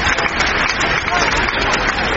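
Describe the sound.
Audience applause at a stage quiz show as volunteers, among them a local pastor, are called up, a dense, steady patter of clapping with voices mixed through it.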